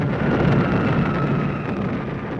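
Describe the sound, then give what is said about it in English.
Archival roar of Allied aircraft bombing Vienna in the closing months of World War II, a dense, loud, continuous rumble with no clearly separate blasts. “Allied aircraft bombard Vienna in the closing months of the Second World War.”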